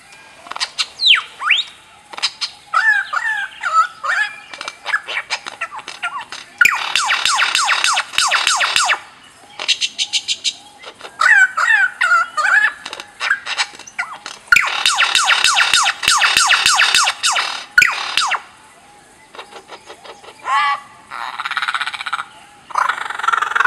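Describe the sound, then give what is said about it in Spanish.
A lyrebird, the great mimic, runs through a long string of imitated sounds: croaks, whistles, siren-like wails and bursts of rapid mechanical clicking. The bursts come and go in varied blocks, loud and busy, with short gaps between them. “Vamos a oír a una de ellas haciendo tantos sonidos que parece difícil de creer sin ver, pero es verdad. Aquí va entonces el ave lira, la gran imitadora.”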